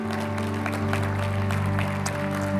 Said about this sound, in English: So, church, can we put our hands together to welcome our visitors this morning?